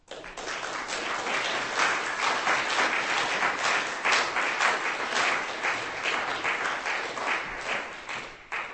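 Steady applause from an audience at a poetry reading, greeting a poet after his poem: dense, continuous clapping with no voices, holding at an even level for about eight seconds before tapering off at the end.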